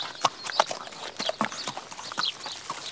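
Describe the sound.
Hooves clip-clop as a horse-like unicorn is ridden along a garden path, many fairly faint hoof strikes in a steady, slightly uneven walking rhythm.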